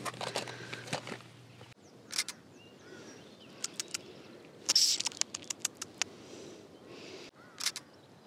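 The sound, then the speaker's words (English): Footsteps walk back to the house from a field as soft, irregular scuffs and patters, faint against a quiet outdoor background, with no talking. “So I'm just going to walk my way back. It's only going to be about a 10-minute walk back to the house.”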